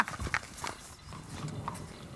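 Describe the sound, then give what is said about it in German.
Faint, irregular clip-clopping of horse hooves is heard as a light brown horse with a black mane is fetched for riding. A few soft, scattered knocks sound over quiet background noise. “Wir holen jetzt mal dein Pferd.”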